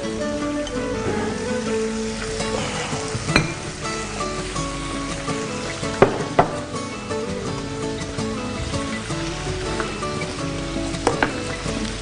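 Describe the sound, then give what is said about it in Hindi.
Steady sizzling of spinach dropped into a hot pan with garlic and ginger, frying with a dense crackling hiss and occasional sharper pops throughout. “ये देखें जैसे ये पकना शुरू हुआ तो उसके अंदर ये पालक हमने ऐड कर दिया।”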